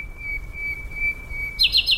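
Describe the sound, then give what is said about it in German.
A nightingale sings a sustained high whistle for about a second and a half, then a short burst of quick, bright chirps, over a faint low rumble. “Eine Berliner Nachtigall singt anders als ein Artgenosse in Stuttgart.”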